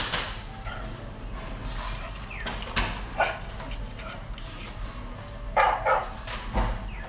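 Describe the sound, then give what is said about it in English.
A Labrador dog barks a few times in short bursts over a steady low background rumble, with the later barks louder and clustered closer together. “That's definitely a lab. It sounds just like Millie.”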